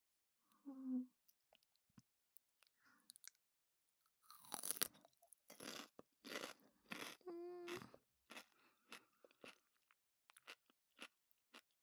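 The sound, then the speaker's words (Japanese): Crunching on cucumber with miso mayonnaise gives many crisp, wet crunches in bursts of bites and chews, with a brief voice sound at the start and another in the middle. “きゅうりに味噌マヨとか無敵いただきます。”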